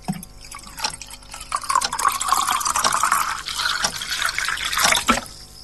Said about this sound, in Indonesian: Kutuangkan air pada gelas yang sudah disiapkan.